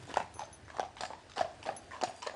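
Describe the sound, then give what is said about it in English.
Hooves clip-clop from a horse pulling a taxi cart on an island where cars are not allowed. Many soft hoof strikes fall in a steady, even rhythm, fairly faint and without any voices. “As there are no cars allowed on Sark, the island has a horse and cart taxi service”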